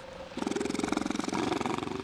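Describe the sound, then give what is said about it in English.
Fur seals barking in a Bering Sea village, a dense run of rapid, throaty pulsing calls that turns loud and continuous after a brief quieter opening, with no talk. “Their barking echoes from nearly every corner of the Ununga village.”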